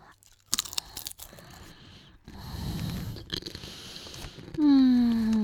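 Someone chews a whole piece of cheese, making moist munching and crunching sounds in irregular bursts, followed by a brief falling vocal tone at the end.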